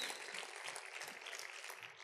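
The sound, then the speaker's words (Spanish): Steady, continuous applause from a church audience praising the Lord, a dense even patter of many hands clapping with no clear breaks and no talking. “Vamos a aplaudir al Rey de Reyes y señores y señores por esta revelación que está en ti.”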